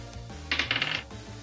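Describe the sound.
A twenty-sided die rolls across a hard surface, making a brief clattering rattle of rapid small clicks that lasts about half a second over a low, steady background hum.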